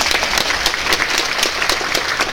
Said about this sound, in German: Da darf man schon mal sagen, da haben wir einen riesen Applaus für die Kandidaten.